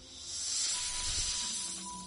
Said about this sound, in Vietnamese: nhìn Trương Quốc Trung, lợi rắn không ngừng phun phì phì.